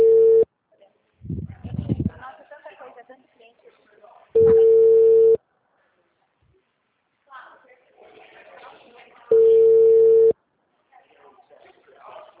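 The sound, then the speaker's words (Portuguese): A telephone ringback tone sounds while calling a client: long, steady beeps repeat about every five seconds, with a person talking quietly between them. “Não, estou ligando para minha cliente.”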